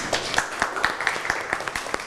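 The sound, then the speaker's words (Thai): Scattered clapping from students in a school classroom after a classmate's presentation, a run of sharp claps with a loose, uneven rhythm over a steady murmur of background noise. “ปรบมือให้เพื่อนหน่อยครับ”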